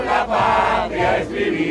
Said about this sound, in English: In Spanish, they chanted for freedom, an end to Cuba's communist regime, and pleaded for the U.S. to help.